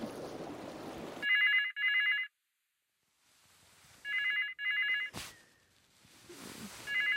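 A telephone rings in a wooden beach house on the Gulf of Mexico, its bright electronic trill coming in paired bursts: two rings, a pause of near silence, two more, then a fifth ring starting at the very end.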